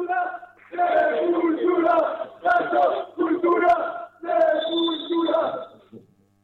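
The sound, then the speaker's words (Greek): Fans at a volleyball match chant personal chants. The crowd voices come in several loud, rhythmic shouted phrases separated by short pauses. “Και εδώ ακούμε και πιο προσωπικά συνθήματα.”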